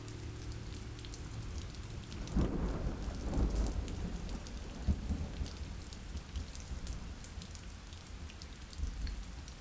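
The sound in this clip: Steady rain pattering down, with a low rumble of thunder swelling early on and fading back into the constant hiss of the rain.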